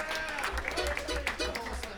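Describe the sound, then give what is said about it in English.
Audience applause for the staff at a live music show, scattered faint claps forming a loose patter rather than a full ovation. “How about a round of applause for the whole staff running the show here tonight?”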